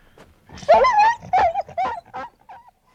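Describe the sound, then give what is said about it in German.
A dog howling in a series of short wavering whines and cries that rise and fall in pitch, moderately loud, with brief gaps between them and no talk. “von woher die Schüsse und dann das Heulen des Hundes gekommen waren”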